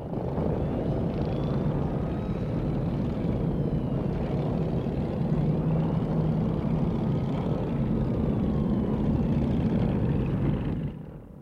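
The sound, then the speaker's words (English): Cars and motorcycles driving away from an oil plant across a dusty plain, heard as a dense, steady engine roar with a faint higher whine. It holds for about eleven seconds, then cuts off. “They watch as the cars and motorcycles surrounding the oil plant suddenly start their engines and drive away over the plain, their wheels kicking up great clouds of dust in their wake.”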